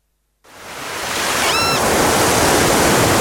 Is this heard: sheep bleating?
no